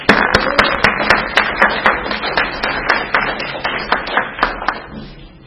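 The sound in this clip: A small audience at an alcoholics' recovery meeting claps to welcome a speaker. Many sharp, crisp claps ring out over a steady patter, then thin out and fade at the end.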